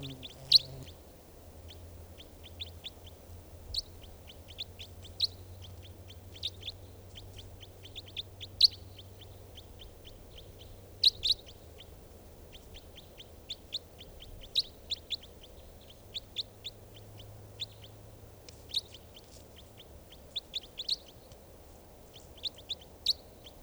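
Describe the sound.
Bird calls: many short, high chirps repeat at irregular intervals over a steady low background hum, with a few calls standing out louder than the rest.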